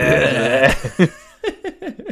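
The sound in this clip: A voice imitating a pony's noise, starting with a drawn-out strained call and breaking into a run of short, bleating, nickering pulses.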